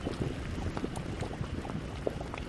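Mud bubbles in a paint pot at Yellowstone's caldera, where oxidized iron colours the mud. Many small bubbles gurgle and pop softly over a steady low hiss.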